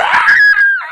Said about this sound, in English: Here's the sound of a man having his arm cut off.